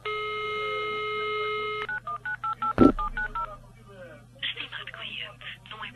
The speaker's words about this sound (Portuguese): Estou a ligar para as meninas, para confirmar. Ah, sim. Pronto. Vou ligar para elas.